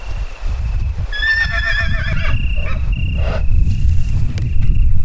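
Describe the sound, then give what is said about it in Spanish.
A horse neighs once, a shrill wavering whinny, heard among free-roaming animals in a mountain forest. It is loud against a steady bed of low rumble and a thin high hum. “Preguntamos a algún caballo alguna cosa, pero esto es lo que contestaba.”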